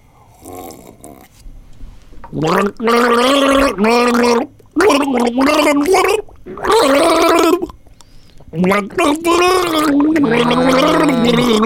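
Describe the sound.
A person gargles water while voicing the tune of an 80s song by a female singer, a bubbling, throaty warble in several long sustained phrases broken by short pauses, loud and close.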